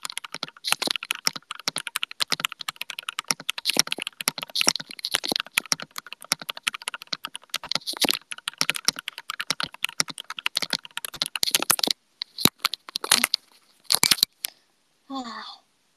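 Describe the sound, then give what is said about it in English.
Rapid typing on a computer keyboard without a tape mod makes a dense, continuous run of sharp, clacky keystrokes for about twelve seconds. The typing then thins out into a few scattered presses. “there was an option to do tape mod on my keyboard when I ordered it, but I asked to not do it because I heard tape mod makes it more clacky.”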